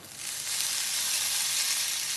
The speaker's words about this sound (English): add a little tempering of spices and ghee. I'm heating a tablespoon of ghee.